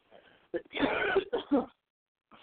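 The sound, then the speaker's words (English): One person coughs and clears their throat in a few rough, harsh bursts of uneven length, the longest near the middle. Quiet pauses come between them, and a faint trailing sound follows at the end. “and I slowly cough my brains out and die”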